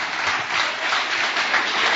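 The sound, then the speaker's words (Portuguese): A church audience applauding: a dense, continuous wash of clapping at moderate loudness, holding steady throughout without breaks. “Vamos receber o servo de Deus com palmas bem forte para Jesus.”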